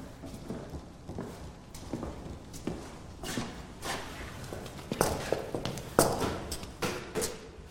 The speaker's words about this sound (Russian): Он продолжает ставить стулья.